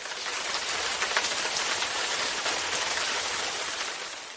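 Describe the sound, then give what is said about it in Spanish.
Steady rain falling, a dense, even hiss of countless drops with no breaks. It holds fairly loud throughout, and no voices are heard. “ese es el ruido de la lluvia”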